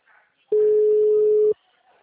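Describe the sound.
A telephone ringback tone sounds while a call is placed: one steady mid-pitched tone lasting about a second, loud and alone, with near silence before and after.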